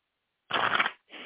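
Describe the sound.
Playing cards from a tarot deck rustle and slide as a card is picked, in two soft bursts, the first longer than the second, with silence around them.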